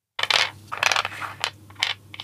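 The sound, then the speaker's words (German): Dice rolled across a surface in a game, heard as a few short clattering, rattling bursts separated by brief pauses, moderately loud and without voices. “das nächste Würfelgeräusch hier”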